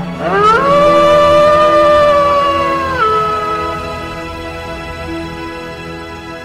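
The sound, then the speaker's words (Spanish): A fierce wolf howls in one long tonal cry that climbs quickly at the start, holds level, then steps down and slowly fades, with no voices. “El bosque pasaron dejando muy atrás a un feroz lobo que ya no pudo más y se quedó exhausto y sin merendar.”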